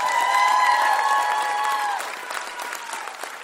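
A concert crowd in West Virginia applauds and cheers to welcome a guitarist onto the stage, with dense, steady clapping that eases slightly after about two seconds but carries on to the end.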